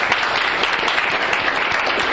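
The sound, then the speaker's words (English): Applause from an audience thanking two student commentators: a dense, steady patter of many hands clapping at an even, fairly loud level throughout, with no voices over it. “Jay and Nevin, and they deserve a great round of applause”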